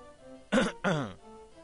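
Two short, harsh coughs or throat-clearing bursts, made to test a microphone's level, come in quick succession. They are loud and stand alone against a quiet background.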